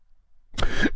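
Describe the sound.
A single harsh cough from someone whose sip of coffee went down the wrong pipe, a short loud burst after near silence.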